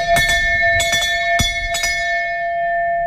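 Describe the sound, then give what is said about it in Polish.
A stock exchange bell at the Warsaw Stock Exchange rings out in a quick series of loud, bright strikes, and its clear metallic tone hangs on and slowly fades after the last hit. “Tak, tak, to giełdowy dzwon.”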